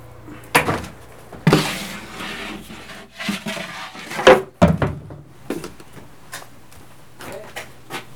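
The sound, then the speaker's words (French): Loaves of bread are loaded into a wood-fired oven, with irregular wooden scrapes, rubs and knocks of varying loudness. “Ok, donc là, tu vois, je commence à enfourner. Si je rate la mise en place des premiers, ben, ça va foire toute mon organisation au four.”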